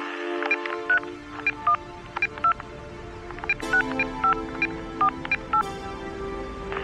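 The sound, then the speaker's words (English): Telephone keypad dialing: many short beeping tones of varying pitch over a steady hum, in two quick runs split by a brief click. “Sorry, you have made this call 425 times in the past 6 weeks and is still unreachable. Dial number is not in coverage. I rang you on the telephone.”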